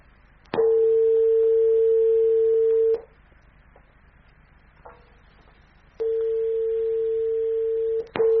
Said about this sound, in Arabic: عفوا، انقطع الاتصال.